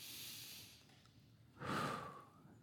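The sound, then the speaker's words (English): A deep breath drawn in as one faint, airy, rushing intake of about half a second. A softer breathy hiss comes earlier, and a low rumbling background runs throughout. “Okay, so everyone take a deep breath right now. Do it again. Deep breath.”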